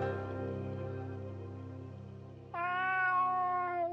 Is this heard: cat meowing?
yes

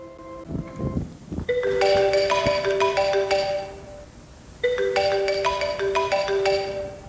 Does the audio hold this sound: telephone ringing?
yes

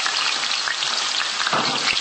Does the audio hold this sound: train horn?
no

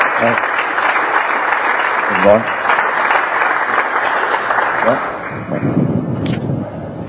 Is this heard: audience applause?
yes

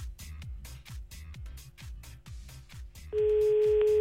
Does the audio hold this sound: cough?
no

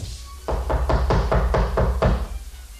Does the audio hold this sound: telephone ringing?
no

